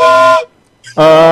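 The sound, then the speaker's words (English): Two steam train whistle blasts, each a loud, steady, tonal hoot, separated by a short silence. The second blast opens with a brief higher chirp. “Two whistles is a yes.”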